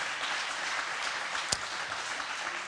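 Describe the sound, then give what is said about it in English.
Applause fills a church, a dense, steady wash of hand clapping at even loudness with one brief louder thump midway. “Then we want to give one more hand clap of praise to our Lord and Savior.”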